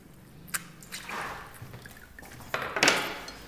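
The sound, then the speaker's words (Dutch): Wet squelching of a lemon being squeezed by hand, its juice added to a five-litre spring home brew with yeast. Faint squishes and drips with a few brief clicks, ending in a louder burst of squeezing, no talk. “Ik pers vast één citroen. Het sap van één citroen gaan we erbij stoppen.”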